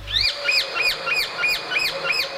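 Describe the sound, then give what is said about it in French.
A male rose-ringed parakeet calling in a rapid, regular series of shrill, high, arched screeches, each rising and falling quickly and standing out clearly alone. “Il s'agit d'un mâle de perruche à collier.”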